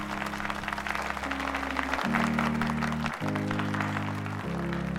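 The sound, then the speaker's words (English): A group of people claps hands in steady, dense applause, with sustained low chords running beneath. No voices are heard. “Tears well in Carol's eyes and she claps.”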